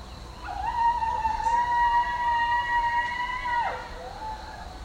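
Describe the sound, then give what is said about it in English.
A person howls at 8 p.m. in a rural Northern California neighborhood during the coronavirus lockdown: one long, sustained, fairly steady tone lasting about three seconds, then a sharp drop in pitch at the end. “is a recording of my neighborhood in rural Northern California. I'm talking to you from the era of coronavirus lockdown. And every night during the pandemic, at precisely 8 p.m., around here, people start to howl.”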